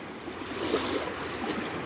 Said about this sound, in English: Being fully present with the sounds of the waves